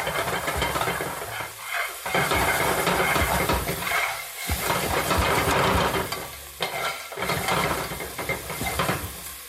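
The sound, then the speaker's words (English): Aromatics stir-fried over intense heat in a pan rather than a wok give a loud, continuous sizzle. Scraping stirring strokes make the noise dip and surge every couple of seconds. “what you're doing here is you're, in Cantonese, we call this bao, which means to explode. So that's kind of what you're doing. You want to get a sort of like really intense heat on these aromatics, bring out their aroma.”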